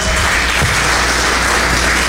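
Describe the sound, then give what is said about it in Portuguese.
A Pentecostal church audience clapping for Jesus, a very loud, dense, uninterrupted roar of many hands with no gaps, constant in level from start to finish. “se essas palmas para Jesus, tem que ser umas palmas mais bonitas, mais pentecostal, mais barulhenta.”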